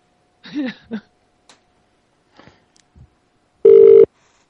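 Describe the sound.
Ringback tone of an outgoing telephone call: one steady, mid-pitched electronic burst lasting about half a second, preceded by a brief murmur of voice and a few faint clicks.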